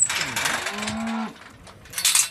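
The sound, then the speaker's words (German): A cow moos on an organic farm in Weisingen, in the Dillingen district: one sustained low, steady call that drops slightly in pitch at its end, set among rustling farm noise, with a brief bright hiss afterwards. “Die Kühe vom Biohof Speinle in Weisingen im Landkreis Dillingen dürfen jeden Tag auf”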